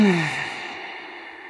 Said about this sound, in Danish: Træk vejret ind og ud igennem næsen og find den her naturlige rytme